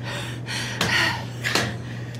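Gasping breaths: two sharp, breathy inhalations a short gap apart, with a low, steady hum underneath throughout.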